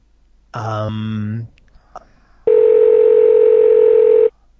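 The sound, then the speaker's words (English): A single steady electronic Google Voice phone call tone holds for nearly two seconds, after a brief lower burst of sound and a faint click. “Please state your name after the tone, and Google Voice will try to connect you. I'm a demon. I love the Google Voice ringing.”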